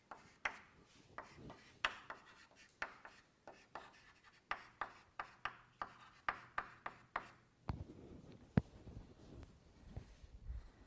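Writing on a board during a lecture gives many quick, scratchy, rhythmic strokes. A quieter stretch follows, broken by one sharper tap.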